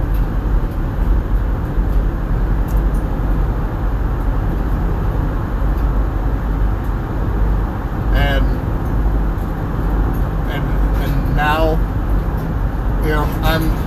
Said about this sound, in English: now I'm out on the road. And obviously, you can hear it in the background, right? I'm out on the road, yay.